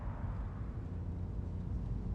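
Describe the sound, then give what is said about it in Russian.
Steady low engine rumble of a car driving past closed shop windows in the evening, an even drone without breaks. “Вечером машина Энди едет мимо закрытых витрин магазинов.”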